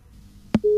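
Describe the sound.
A sharp click cuts in, then a steady telephone tone begins as a phone-in call drops mid-conversation.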